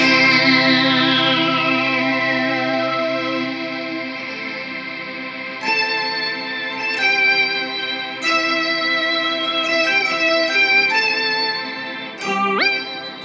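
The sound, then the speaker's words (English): Sustained notes from a Harmony H35 mandolin with a pickup, run through effects that add chorus and echo. Several fresh attacks break through a droning wash, and near the end a note bends sharply down and back up. “Like, at the point you're making the mandolin sound like that, it's firmly out of the realm of this thing sounding like a mandolin.”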